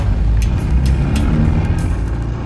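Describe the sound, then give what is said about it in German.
A car accelerates and drives away on a desert road at night, a loud, steady low engine rumble with faint higher hiss above it. “Der Narco gibt Gas, überholt uns und entschwindet in die Nacht.”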